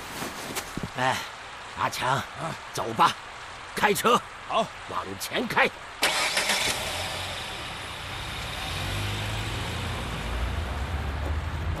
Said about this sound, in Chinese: 走吧，开车， 好， 往前开。